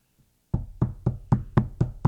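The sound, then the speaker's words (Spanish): Knocking on a door: after a moment of silence come seven firm, dull knocks, evenly spaced in a steady rhythm. “Le están golpeando la puerta.”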